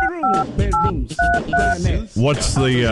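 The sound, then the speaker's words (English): Touch-tone dialing of a home phone number comes through as four short, bright dual-pitch beeps spaced between bursts of people talking. “I think I dialed his home number, and I don't think that works.”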